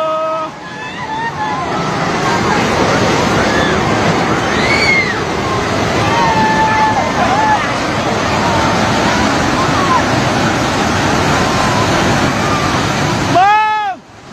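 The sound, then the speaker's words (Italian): Roaring flash flood water in Nepal after a glacier collapse, a dense, steady rushing roar that holds for the whole clip, with voices calling out over it and a few higher shouts near the end. “Quello che avete sentito è l'audio dell'inondazione che ieri ha colpito il Nepal.”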